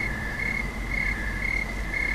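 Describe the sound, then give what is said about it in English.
Crickets chirp at night in Napa in a steady, high-pitched pulsing chorus that runs without pause over a dense background hiss, with no voices. “we moved from Berkeley, and the one thing that we remember from the difference the first night were all the crickets.”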